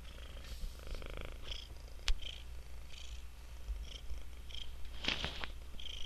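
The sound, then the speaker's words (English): A cat purrs steadily, a faint, continuous low rumble with a soft pulsing texture and a few brief clicks over it. “it's purring”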